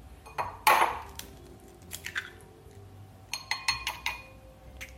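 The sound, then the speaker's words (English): Two large eggs being cracked into a bowl: one sharp knock followed by several light taps and clinks against the bowl, faint and alone. “Okay, now we need two large eggs, which I have here. I'm gonna crack them.”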